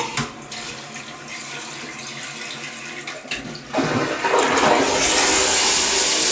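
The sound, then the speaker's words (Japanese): A toilet being flushed: a steady run of water swells partway through into a loud, hissing, rushing gush that continues to the end, with no talk. “よし、じゃあ流します。”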